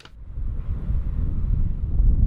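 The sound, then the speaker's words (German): Wind buffets the microphone while Somaliland's national flags wave outdoors, making a steady, low rumbling gust that swells slightly toward the end. “Grün-weiß-rote Fahnen mit einem schwarzen Stern in der Mitte wehen im Wind.”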